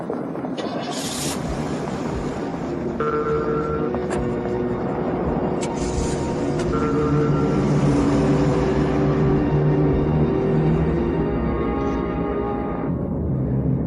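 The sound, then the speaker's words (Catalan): A car drives off in a dubbed film scene, its engine giving a steady low rumble that holds at an even level throughout, with faint higher tonal hums over the drone. “Tu vés amb l'altre cotxe, jo aniré amb en Michael. Au, vés.”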